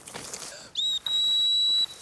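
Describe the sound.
A high, steady whistle calls back a hunting dog that flushes small game during a hunt. It sounds as a short blast, then a longer sustained one at the same piercing pitch, above faint background noise.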